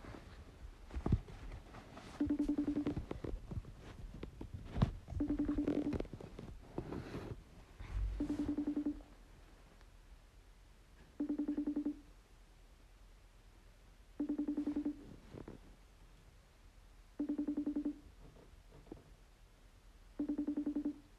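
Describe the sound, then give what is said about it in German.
An outgoing video call placed from a tablet rings out: seven steady, evenly spaced ring tones about three seconds apart, with faint handling noise during the first few seconds. “Wir rufen sie jetzt gemeinsam an.”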